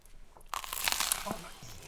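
Crunchy chewing of a toaster-browned croquette made with Jagariko snacks and topped with sauce: a quiet pause, then a dense burst of crisp crackling bites that gradually softens.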